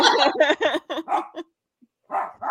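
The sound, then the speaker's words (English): A pet dog barks in a quick burst of sharp, yappy barks, goes quiet for a moment, then lets out a couple more. “excuse my dog barking because I have to babysit her tonight”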